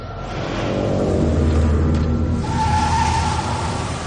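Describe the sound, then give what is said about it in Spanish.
A car reverses and skids away out of a motel lot, with a loud, steady engine roar throughout and a brief higher squealing tone partway through. “John se sube al coche, da marcha atrás y sale derrapando del motel.”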